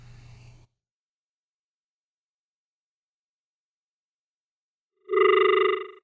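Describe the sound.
A telephone rings once on a call-in line, a steady buzzing harmonic tone lasting under a second. It comes after a long silence, with a brief faint noise at the very start.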